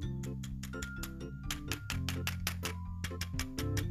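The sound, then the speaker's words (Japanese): Clicking of an injection pen filled with liquid medicine as its cap is removed, a rapid run of light, sharp plastic clicks and rattles over a steady low hum. “キャップを取らなきゃいけないので、これね。わかりますこのカチャカチャ感。”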